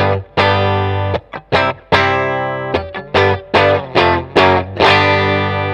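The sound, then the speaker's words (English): Bright, twangy notes from a Telecaster-style electric guitar played through its bridge Player Series pickup, with six steel saddles: many sharp plucked notes and chords ring out loudly and alone, each attack clean and quickly followed by the next. “That classic Tele twang. Sounds like a Tele.”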